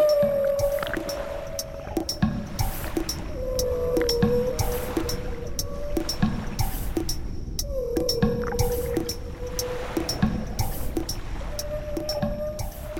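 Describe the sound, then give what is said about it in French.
Whale song from a whale swimming at the ocean surface: drawn-out, moaning tonal calls that slide and waver and recur several times over a bubbly, watery wash with scattered drips. “Oh, j'entends un drôle de chant. C'est sûrement une baleine que je ne connais pas qui nage à la surface.”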